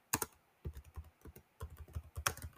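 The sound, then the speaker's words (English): Rapid typing on a computer keyboard: quick clusters of crisp key clicks in several bursts separated by short pauses, at a steady, moderate level with no voices. “Here, let me just type it in.”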